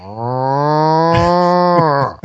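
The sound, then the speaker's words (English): A cow from a herd outside a window lets out a single long, loud, low moo with a rich, steady tone, ending with a brief trailing grunt. “One started mooing and then the whole herd. Everyone wanted to move. It was like some sort of congregation of cows outside my window.”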